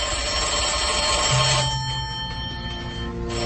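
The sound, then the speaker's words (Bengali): A landline telephone rings in steady electronic tones, a sustained ring with a short gap before it starts again, with no voices. “হঠাৎ আচমকা land ফোনের আওয়াজে চমকে যান inspector, তারপর call receive করে কথা বলতে ব্যস্ত হয়ে পড়লেন।”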